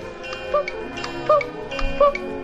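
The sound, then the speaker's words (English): A cuckoo-style clock, the poo-coo clock from a Winnie the Pooh video, ticking steadily, with three short tonal chirps spaced evenly among the ticks. “Now when Pooh heard his poo-coo clock,”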